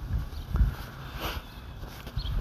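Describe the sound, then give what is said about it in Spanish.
Wind buffets a microphone as someone walks down a neighbourhood street: low, rumbling gusts that swell and fade, strongest near the start and again at the end. “aquí, aquí, un poco hace viento caminando por la calle del barrio”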